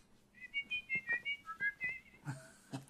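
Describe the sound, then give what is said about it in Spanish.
Two people whistle a tune together in two parts, a quick run of many short, bright notes in a lively rhythm, fairly faint and heard alone. “silba a dos voces”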